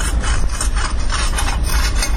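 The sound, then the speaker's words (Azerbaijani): Steady, loud scraping and rasping as a woman clears stones and gravel from a railway track with a small iron tool. The gritty grinding runs continuously, with no pauses. “Bir qadın əlində kiçik dəmir alətlə dəmir yolundakı daşları, çınqılları təmizləyir.”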